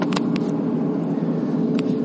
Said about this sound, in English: Damn, cop just drove by.